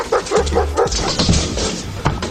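A dog barks in a quick series of short, mid-pitched barks, loud and clear with no talk. Fainter, noisier yelping sounds follow.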